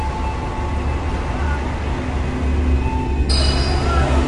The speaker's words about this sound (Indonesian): Tidak lama setelah itu, kereta pun berangkat meninggalkan stasiun Cikudapate.